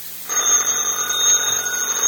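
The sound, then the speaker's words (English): A telephone rings with a steady, bright, trilling bell tone that starts abruptly and holds at an even loudness to the end. “Answer the phone”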